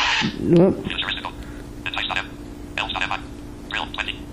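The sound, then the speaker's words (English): A mobile phone vibrates and rings: a few regular buzzing pulses about once a second over a steady low hum, after a brief chirp at the start. “Yeah, now the phone is vibrating like it's supposed to.”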